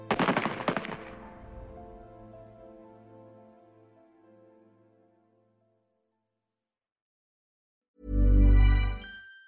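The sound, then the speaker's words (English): Gunfire of a firing squad execution in December 1944: a sudden volley of sharp shots at the start rings out and fades over several seconds into silence, then a loud, low burst of sound cuts in near the end. “26th of December 1944, Villaplan is shot by firing squad, having been condemned as one of the most despicable traitors in his country's history.”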